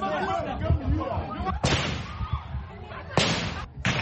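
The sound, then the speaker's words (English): Gunshots as prison officials fire into the air to disperse a growing crowd outside a court. A few sharp, loud bangs cut through steady crowd chatter and commotion. “prison officials fired into the air to disperse the growing crowd before putting Nyanzi into a van and taking her back to jail.”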